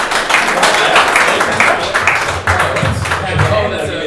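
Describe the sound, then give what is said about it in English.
Audience applause welcoming a guest performer from Canada onto the stage, a dense, loud, steady wash of clapping, with voices faintly present. “So please make them feel very welcome. They've come all the way from Canada, I believe. And so put your hands together for Dion Arnold!”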